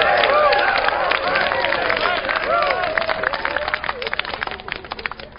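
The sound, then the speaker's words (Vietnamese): Crowd clapping and cheering as a king ploughs the first furrow of the new farming season in a field: a dense, steady wash of excited voices with scattered claps, the quick hand claps growing more distinct toward the end. “Dân chúng vỗ tay hoan hô vang rền.”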